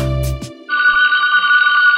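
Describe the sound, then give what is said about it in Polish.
Phone ringing with an incoming call: a loud electronic ringtone that begins with a low buzzing tone, breaks briefly, then switches to a bright, steady higher-pitched chime. “Dzwoni Zbyszek. Dzwoni Zbyszek. Dzwoni Zbyszek.”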